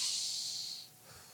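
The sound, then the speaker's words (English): A deep breath drawn by a speaker during a sermon, a loud airy hiss that lasts under a second, then drops away into a softer, quieter breath. “deep breath now. Come on, deep breath.”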